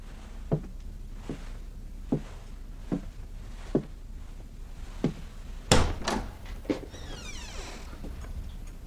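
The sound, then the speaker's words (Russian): Several slow, evenly spaced knocks on a door in a film, followed by a louder clatter of the latch and a creaking door swinging open. “Стучит. Открывает дверь. Заходит в пустой дом.”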